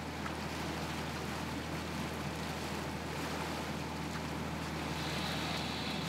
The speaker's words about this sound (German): Ein Schubverband auf dem Weg nach Süderoog. Die Schute ist mit 200 Ballen Heu beladen.